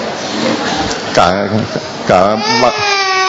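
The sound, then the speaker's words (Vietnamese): An infant cries during a blessing at an audience gathering. Two wavering, high-pitched wails rise and fall over a steady background hiss, with adult voices present. “À con hơi bé lên cho nó khỏi khóc đi.”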